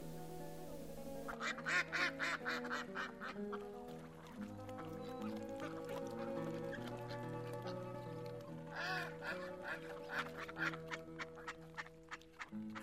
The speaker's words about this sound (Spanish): Pasan los patos.